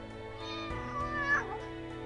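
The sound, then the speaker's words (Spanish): A domestic cat gives a single drawn-out meow that bends in pitch, fairly soft over a low steady hum, with no other sounds. “animales domésticos como el gato”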